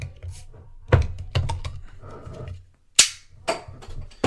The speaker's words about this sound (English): And somebody is dead. There's a cap gun. Get it? A cap gun? He just popped a cap in somebody.